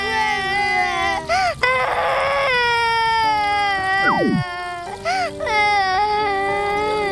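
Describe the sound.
A child cries in long, high wailing sobs with wavering pitch, loud and sustained, broken by a few short catches of breath.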